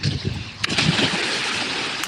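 People wading and splashing into a river make a dense, continuous wash of churning water with a few sharper splashes standing out.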